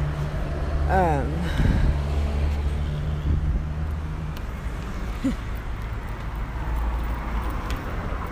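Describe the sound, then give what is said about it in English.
Cars driving past in street traffic at a crossing, a continuous low rumble of engines and road noise that stays fairly steady beneath a person talking. “I just crossed the street and the light turned green for the cars to go.”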